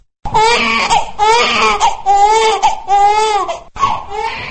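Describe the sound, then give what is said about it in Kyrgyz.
A newborn baby cries in loud, repeated wails, each long and tonal with a wavering pitch, broken by short gasps for breath. “Мына ошентип мен келдим деп жар салып ыңалап жарык дүйнөгө келген баланын”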